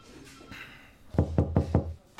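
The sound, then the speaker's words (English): Four crisp knocks on a door land in quick, even succession after a hushed pause. Each one is a sharp hollow rap, fairly soft overall, and a faint extra tap follows at the very end. “You knocked?”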